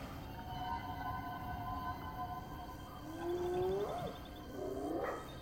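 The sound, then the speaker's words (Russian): Hyenas cry in the animated film The Lion King: two faint, rising, howl-like whoops come near the end over a steady, soft tonal drone. “Заслышав гиен, прячется.”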